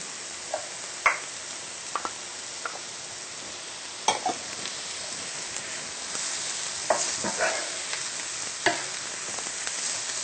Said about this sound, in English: I can see the leeks are beginning to brown, so now we will add the chopped mushrooms.